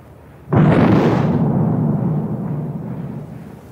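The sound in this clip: A naval gun salvo fires in one sudden, loud boom, followed by a deep rumbling tail that slowly fades over several seconds.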